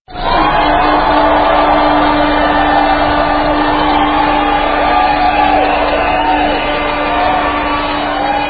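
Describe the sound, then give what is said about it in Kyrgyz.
A crowd of supporters shouts outside the Ecuadorian embassy, a loud, sustained roar of many voices that stays steady throughout, with a faint steady hum beneath it. “Сөзүнүн аягында Эквадор элчилигинин сыртында кыйкырып кол булгалап турган санаалаштарына ыраазычылык билдирди.”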